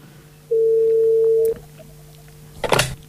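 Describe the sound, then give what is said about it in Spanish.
A telephone line rings while a call is being placed. One steady tone lasts about a second, then a pause, then a brief burst of noisy clatter near the end. “Vamos a llamar. Venga, Jordi, vamos a llamar. Está llamando”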